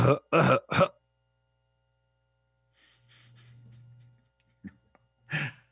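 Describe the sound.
A voice clears its throat to imitate a hockey team's goal song: three rough, harsh bursts in quick succession, then a low droning hum, a short click and one more raspy burst.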